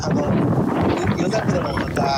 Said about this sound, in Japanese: これ風がねもう少し穏やかだったら良かったんですけど。 そうですね。 すごい音。